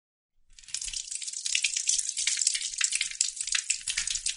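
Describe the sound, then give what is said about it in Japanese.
A toilet flushes: after a brief silence, a loud rush of water surges in and keeps gushing steadily with a bright, hissing wash to the end. “じゃあトイレに流すよ。”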